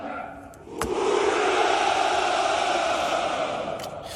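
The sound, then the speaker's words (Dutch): A crowd shouting the Russian battle cry "ura" in one long, loud roar of many voices. It swells in after a sharp knock near the start and holds steady for about three seconds before easing off. “Ja, dit was, hij zei, voor de overwinning, voor de strijdkrachten. Hoera, hoera. En hoera is in het Russisch een strijdkreet.”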